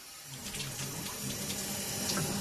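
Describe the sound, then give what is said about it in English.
Water runs steadily from a sink tap during a flow-rate test. It is an efficient low-flow tap delivering under 2 gallons per minute, heard as an even, continuous rush of water with no other sounds. “Okay, so sink and shower is very efficient, running under 2 gallons per minute.”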